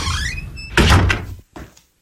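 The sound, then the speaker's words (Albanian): A door is opened with a loud clunk and a scraping rattle. A shorter, softer knock follows before it goes quiet. “Jemi ne. Hapeni derën.”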